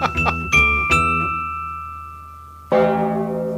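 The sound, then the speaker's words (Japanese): Temple-bell-like chimes within a piece of music: a few quick struck bell tones ring out, a long high tone then fades slowly, and a fresh struck chord enters near the end. “お寺の鐘の 状態だよね、お寺の鐘ですよねこれ、ゴーンって”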